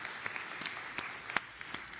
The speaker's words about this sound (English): Please give our volunteers a round of applause.